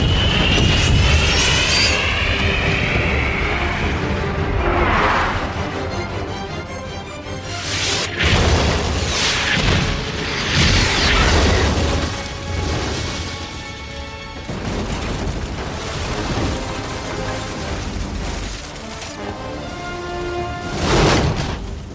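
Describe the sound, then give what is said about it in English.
Maverick missiles fired from military jets at a bridge roar and explode in a loud, dense wall of jet and rocket noise, with several heavy booming impacts rising out of the rumble. “These missiles won't set off those nukes, will they?”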